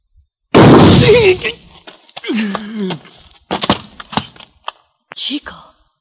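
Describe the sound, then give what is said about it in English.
A gunshot in an old-time western radio drama: one loud, sharp burst that decays briefly, followed by men talking. “It is impossible that someone could shoot faster than Signor Drew. And with your left hand.”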